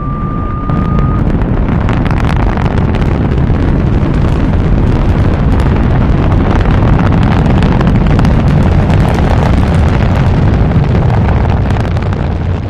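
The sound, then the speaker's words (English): Rocket blasting off after a countdown: a loud, dense, continuous roar that holds steady throughout, with a thin high tone briefly audible at the very start. “Countdown for blastoff. X minus 5. Minus 4. Minus 3. Minus 2. X minus 1. Fire.”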